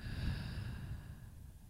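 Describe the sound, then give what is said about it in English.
Slow breathing in and out during a guided relaxation exercise, a soft, airy rush of breath that stays steady and faint, with no talking. “Another breath in and out.”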